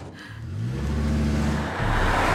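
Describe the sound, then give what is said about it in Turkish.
A boxy, simple, reliable car driving off: a low engine hum climbs in pitch, then holds steady. It dips briefly and resumes at a similar level. “Evet, işte yola çıktım. Bu kutu gibi güvenilir basit bir araba.”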